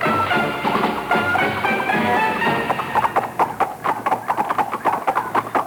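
Horse hooves clip-clop on a turnpike road. A steady rhythmic patter of hoofbeats grows sharper and more distinct in the second half, each strike a crisp, moderately loud knock.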